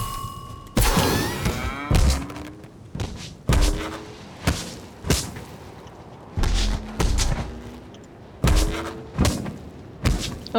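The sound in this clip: Sound effects from a video game's loot llama: a string of about ten punchy thuds and bursts, some carrying short chirping tones, separated by brief gaps. No one talks.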